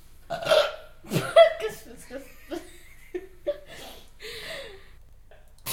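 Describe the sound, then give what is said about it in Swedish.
Burping: a run of several short, throaty belches of varying loudness, the strongest early on, with quieter ones spaced out after. “Varför rapar du så mycket?”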